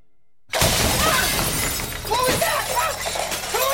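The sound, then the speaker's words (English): A bedroom window shatters in a sudden loud burst of breaking glass, followed by a spray of bright crackling shards and scattered tinkling debris. “The window in Eugene's room shatters.”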